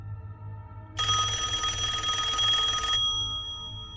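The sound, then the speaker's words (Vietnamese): A telephone ringing, one continuous bright electronic ring lasting about two seconds, loud over a low steady hum. “Lại tiếng chuông điện thoại. Tôi giật mình.”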